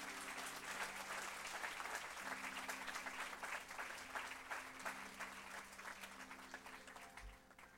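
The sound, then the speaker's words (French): A church audience applauding in praise of Jesus, a continuous soft patter of many hands with faint sustained low tones underneath, gradually thinning toward the end. “Est-ce qu'on peut juste acclamer Jésus, frère et sœur”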